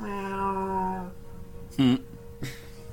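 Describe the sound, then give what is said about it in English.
Meowing from a small ginger cat: a couple of short, mid-pitched cries, the first stronger and wavering, the second briefer and fainter. “You pick up the little ginger cat.”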